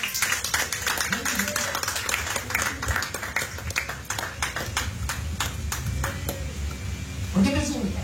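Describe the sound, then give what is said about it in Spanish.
An audience claps in steady rhythm as an offering to the Lord, with many sharp, evenly spaced hand claps continuing throughout. A voice is heard briefly near the end. “denle una ofrenda de palmas al Señor.”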